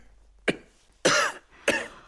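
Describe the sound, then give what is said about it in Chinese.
A person who coughs daily and has a lung nodule coughs three times, first a short cough and then two harsher, longer ones, with no talk in between. “你现在天天咳嗽吗？”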